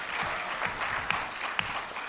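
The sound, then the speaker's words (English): Panel audience applauding: steady clapping from many hands, fairly quiet and even, with a couple of sharper individual claps standing out. “I'm an open and out abolitionist, which you can clap for that.”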